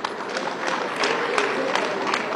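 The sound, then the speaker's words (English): A crowd at a gathering of comrades gives a round of applause: sharp claps land in a fairly regular beat over a constant noisy crowd bed, with no clear talk. “A round of applause.”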